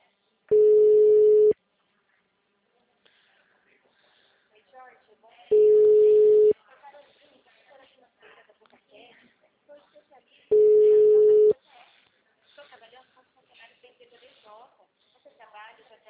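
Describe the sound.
Ringback tone of an outgoing phone call: three steady, mid-pitched one-second tones, evenly spaced about five seconds apart, with faint voices murmuring in the gaps between rings.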